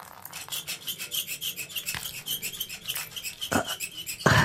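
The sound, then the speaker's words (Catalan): Sawing effect of a blade being forced through a neck: many quick, raspy back-and-forth strokes in a steady rhythm, with a couple of louder scraping bursts near the end. “El botxí procedeix a intentar serrar el coll. Però la fulla no està feta per això.”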